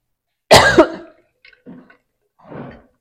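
A single loud, harsh cough from a preacher with a tickle in his throat during a sermon, followed by a few faint breathy throat-clearing sounds.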